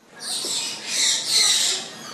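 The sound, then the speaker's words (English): Orange-bellied parrots in a zoo breeding enclosure chirp in a dense, overlapping cacophony. The high, hissy chatter blurs into a continuous wash that swells twice and stays loud throughout. “Walking into the orange-bellied parrot breeding enclosure at Adelaide Zoo, and a cacophony of chirping fills the air.”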